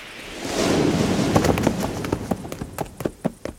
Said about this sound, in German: Die 4 älteren Ponys trotteten an den Rand der Weide.